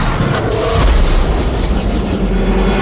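A loud, booming explosion effect from a Chaos Blast attack in a video game: a dense, rumbling roar that swells near the start and holds steady without a break.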